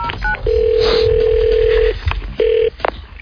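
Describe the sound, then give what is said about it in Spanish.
Telephone tones as a three-digit number is dialed: a long, steady mid-pitched tone, then a shorter tone at the same pitch, with brief clicks around them and no talk. “que vaig a marcar. Tres números.”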